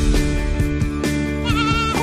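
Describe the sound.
A male goat bleats a few times in quick, wavering harmonic cries, loud and alone.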